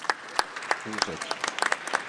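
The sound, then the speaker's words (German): Audience applause at a panel discussion on China, with a steady patter of many hands clapping throughout and a voice briefly heard over it. “Ja, Sie können sich auch selber beklatschen, das ist nicht weiter schlimm.”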